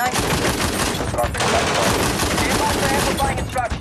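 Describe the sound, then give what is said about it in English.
Loud gunfire from a mounted gun on a Humvee roof, fired at attackers, pours out in a dense, continuous stream of rapid shots with hardly any gap between them. “Hasser has climbed up to the gun on his Humvee's roof and fires at the attackers.”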